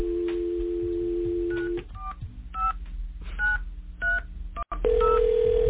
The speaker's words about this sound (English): I'm going to go ahead and dial a number now.